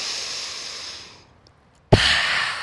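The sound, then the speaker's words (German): Forceful breathing in a breathwalk relaxation exercise: an airy breath fades to near silence, then a sudden loud, hissing breath bursts out and carries on strongly. “Du atmest kräftig ein und atmest durch den Mund wieder aus. Geballte Ausatmung.”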